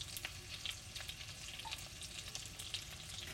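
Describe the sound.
Pork frying in too much oil gives a steady, dense sizzle with sharp crackles and pops scattered throughout, alone without talk.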